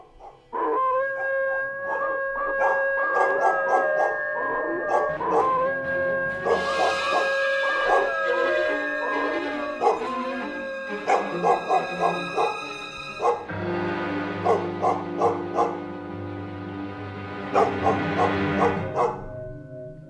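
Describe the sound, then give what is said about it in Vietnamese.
A pack of village dogs barking and howling loudly together, with long, sustained tonal howls broken by bursts of rhythmic barking that continue throughout. “Lẫn trong tiếng gió là tiếng của bầy chó ở trong làng cứ sủa lên ầm ầm, rồi nó chu lên kinh người.”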